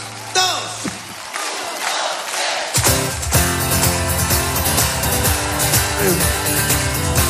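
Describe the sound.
A live concert audience sings and shouts along with the band. Loud massed voices are at first over sparse sound, then the full band music swells in after a few seconds and carries on under the crowd.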